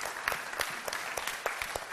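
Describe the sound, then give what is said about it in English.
Faint applause from a church audience, with distinct individual claps scattered through a quiet, uneven patter of clapping. “That deserves a round of applause. It really does.”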